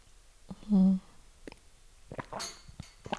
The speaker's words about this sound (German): Jetzt nehme ich hier nochmal einen Schluck von meinem Kaffee.